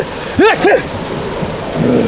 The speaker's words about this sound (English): I'm catching my death in this rain.